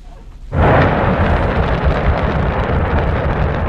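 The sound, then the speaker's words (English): Deep, thunderous roar of the Shenzhou 23 rocket launching from the Jiuquan launch center in Inner Mongolia, surging in abruptly after a quieter half-second and holding steady and powerful throughout. “That's the sound of China's Shenzhou 23 rocket blasting off on Sunday from the”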